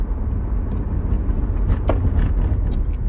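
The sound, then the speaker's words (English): A car driving along a city street: a steady, loud low road and engine rumble with a brief airy swish near the middle. “We are about to drive past the Wiltern.”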